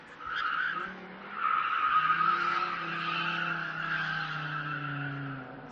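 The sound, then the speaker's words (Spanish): Tyres skid and squeal continuously as cars race illegally on an industrial estate, a sustained shrill, tonal screech that shifts in pitch and holds for several seconds, with engine roar underneath. “Pues han vuelto las carreras ilegales al polígono de Bío, no los fines de semana”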